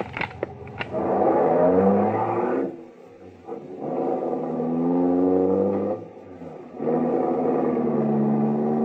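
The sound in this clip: A taxi cab engine roars as the cab drives off, building in three loud revving surges separated by brief lulls, steady and continuous with no voices.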